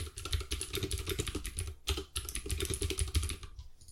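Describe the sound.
Rapid typing on a computer keyboard, a steady clatter of many light key clicks with a brief pause partway through, then tapering off quietly at the end.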